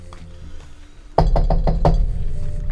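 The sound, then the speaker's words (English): Hard knocks on a door come in one quick burst of several sharp, loud raps after a second of quiet background hum, followed by a low, steady rumble. “Knock on the door. Couple hard rasps.”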